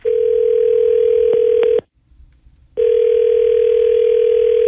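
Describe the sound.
An outgoing telephone call rings back with a steady, loud, low-pitched tone in two long bursts. The bursts are separated by a pause of about a second, with no talking.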